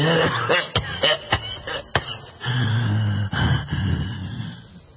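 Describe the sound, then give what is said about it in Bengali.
An old man coughing violently and short of breath: a rapid series of harsh, hacking coughs, then strained, raspy wheezing breaths. “বুড়ো আরো কিছু বলতে যাচ্ছিল কিন্তু প্রচন্ড কাশি পায় তার, যেন হাঁপ ওঠে।”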